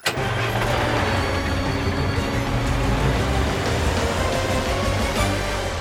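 A car engine runs as the car drives through streets, a loud, dense, continuous rumble and road noise at an even level throughout, with no voices.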